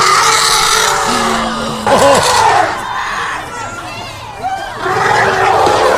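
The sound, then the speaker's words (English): A crowd at the San Diego Zoo's elephant enclosure yells and screams in a loud, dense mix of voices, with sharp cries rising above the steady clamor. “Listen to the crowd.”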